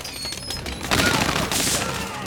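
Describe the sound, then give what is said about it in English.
Dense, loud bursts of gunfire rattle through a vicious gunfight between armed heavies and an assault squad, with automatic pistols firing in rapid, overlapping volleys. “Upstairs, the vicious gunfight between Ted's heavies and the black-clad Korean assault squad is in full swing.”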